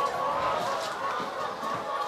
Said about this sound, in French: alors là, on est resté un petit moment au milieu des poules.